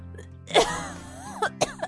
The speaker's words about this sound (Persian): خاک با سرفش گرد و خاکی بلند کرد و گفت: